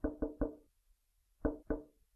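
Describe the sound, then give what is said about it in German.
Knocks tap out a message: three quick, resonant raps, a short pause, then two more. The knocks sound alone, with no voices. “Emsig wie ein Specht am Baumstamm klopfte Peter eine Nachricht nach der nächsten.”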